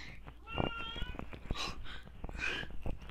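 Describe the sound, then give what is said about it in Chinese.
A kitten meows a few times, faint and high-pitched, with tonal cries standing out against a soft, noisy background. “哦，是小猫咪，”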